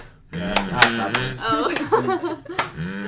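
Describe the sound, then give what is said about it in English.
A few sharp hand claps ring out at uneven intervals, mixed with people talking and light laughter. “Oh, clapping. Is it still going?”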